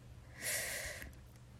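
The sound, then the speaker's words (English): Soft breathing during a relaxation exercise of drawing air in through the nose and letting it out through the mouth: one quiet, airy breath of about half a second, faint and without talk. “Remember, inhale through your nose and out your mouth.”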